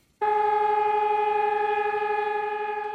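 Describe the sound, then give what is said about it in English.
Sirens sounding to mark the 80th anniversary of the start of the Warsaw Uprising: a loud, steady, held tone that begins abruptly after a brief quiet and keeps a level pitch to the end. “That is the sound of sirens to mark the 80th anniversary of the start of the Warsaw Uprising.”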